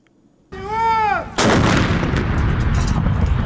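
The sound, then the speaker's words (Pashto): Heavy weapons artillery fire from Afghan forces striking Taliban positions in southern Afghanistan: a whistling tone arcs for about a second, then one loud blast with a long rumbling tail. “دلته د افغانستان په جنوب کې افغان ځواکونو د جنگ تاکتیک بدل کړی او د وسلوالو طالبانو پر مرکزونو د لوی وسلو بریدونه کوي”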